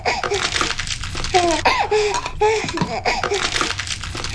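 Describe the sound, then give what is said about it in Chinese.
A baby cries in repeated, rising and falling wails of fairly high pitch that keep going steadily over a constant low background noise. “怎么一直哭啊？”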